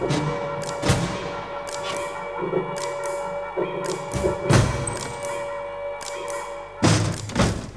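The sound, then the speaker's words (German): Windows being shut: a few heavy thuds and knocks over a steady low hum, with quieter clatters and bumps in between. “Das kann verbessert werden. Schließen Sie zunächst die Fenster.”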